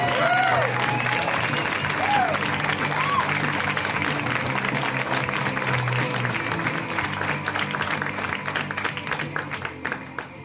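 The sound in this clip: Audience applause welcoming a comedian onto the stage: dense, steady clapping from a crowd that holds strong for several seconds, then thins and fades toward the end.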